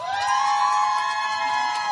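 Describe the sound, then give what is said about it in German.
Audience cheering as a performer walks on stage for a set with her band. Steady, loud, high whooping voices hold a sustained, slightly wavering pitch for two seconds. “Paula Stellar, euer Applaus.”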